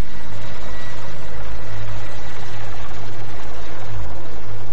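A helicopter flies on an air mission, giving a loud, steady drone of rotor and engine noise with a low, throbbing rumble throughout and no voices.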